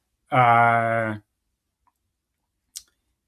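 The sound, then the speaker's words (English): An angelic-sounding sound effect: a sustained, rich harmonic tone that holds steady for about a second and then stops, followed by silence and one faint, brief click. “And I hope you enjoyed that angel type sounding sound effect”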